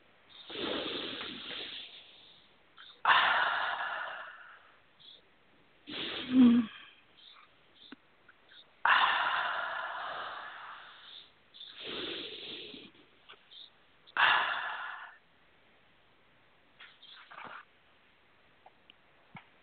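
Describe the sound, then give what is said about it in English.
Slow, deep breathing: several long, airy inhales and exhales in an unhurried rhythm, separated by quiet pauses, fairly soft and with no talk. “And a couple of nice deep breaths.”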